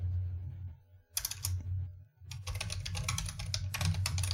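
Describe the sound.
Fast typing on a computer keyboard, with rapid clicky keystrokes in bursts broken by two short pauses, over a steady low hum. No one speaks.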